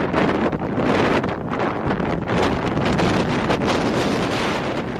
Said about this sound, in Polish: Nad Polską utrzymuje się dość spory gradient baryczny, który jest przyczyną tego silnego wiatru, który jest najbardziej odczuwalny w górach.